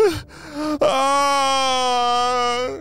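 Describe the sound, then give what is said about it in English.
A voice performing a cartoon villain's crying and wailing: a short choked sob, then one long, drawn-out, steady wail that tapers off at the end. “As Dr. Stinky Breath was crying, huddled in the corner, the Purple Ninjas and Professor Sticky Fingers”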